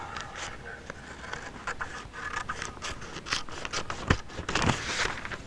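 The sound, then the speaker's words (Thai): Scissors cut through blouse fabric, taking the waist section off the back piece. Many quick snips and scraping rasps come in an uneven run, ending in a few louder, sharper cuts. “พอเราทำเกล็ดพินเซ็ตลายตรงนี้แล้วเราก็ตัดท่อนเอวออกนะคะ”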